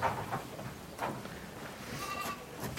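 Farm goats bleating, with a few short, wavering bleats scattered over a low background rumble.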